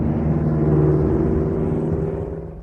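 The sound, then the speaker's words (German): Engine roar of a military vehicle accelerating hard over a corduroy log road: a loud, dense rumbling whir with heavy low-end noise, holding steady and easing slightly toward the end. “Als die Ari loslegte, trat Schimmick das Gas durch und preschte über den Knüppeldamm”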